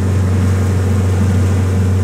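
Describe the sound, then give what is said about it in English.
Boats carrying Leech Lake Band researchers head out on Leech Lake on a warm August day, their motors giving a constant, loud low drone with no breaks or voices. “On a warm August day, researchers from the Leech Lake Band head out in boats to a spot marked with a buoy.”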